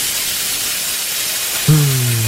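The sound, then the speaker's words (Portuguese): Juicy steak sizzling in a frying pan of hot oil gives a steady, bright hiss throughout, and a low humming tone joins near the end. “A frigideira com óleo quente. Agora, imagine um filé saudade, suculento, tocando a frigideira.”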